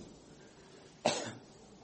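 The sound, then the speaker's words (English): A single short cough from a person troubled by seasonal allergies during a spoken sermon. It is a sharp burst that trails off quickly against a quiet background, with no talking alongside. “I'm sorry for my little bit of cough. I get it every year during the allergy season.”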